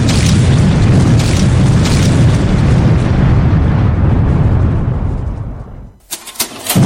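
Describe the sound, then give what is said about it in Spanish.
A massive explosion from a malfunctioning robot roars as a long, loud, sustained rumble that dies away near the end, followed by a few brief pops. “¡Va a explotar! ¡Adiós, planeta Tierra!”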